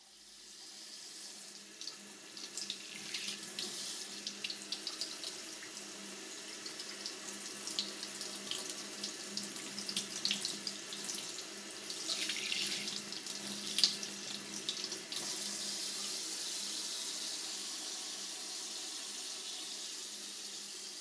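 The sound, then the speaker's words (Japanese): Warm water runs from a tap in a steady, soft hiss with light splashing and trickling. It stays quiet and continuous throughout. “お耳がお湯で温められるのは気分がいいものですが、”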